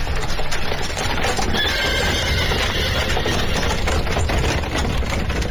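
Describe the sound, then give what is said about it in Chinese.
Hooves clip-clop as two horse-drawn carriages hurry to an old residential lane, a dense, rapid clatter over a constant rumbling background, with a horse whinnying briefly midway. “两辆马车嘚嘚地赶到了老渔阳里。”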